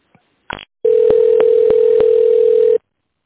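Steady mid-pitched telephone tone while a call to a business line is being connected, holding level for about two seconds with faint clicks along it, after a brief buzzy burst.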